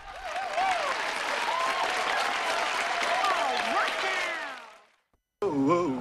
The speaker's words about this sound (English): the only one not joining in the applause